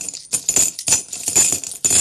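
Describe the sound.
Coins drop into a Phrasenschwein, a swear-jar piggy bank, in a series of bright, loud clinking rattles that follow one another quickly. No talk is heard over them.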